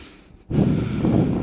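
A deep demonstration breath, heard as a loud, airy rush of air lasting about a second that starts abruptly after a brief quiet moment.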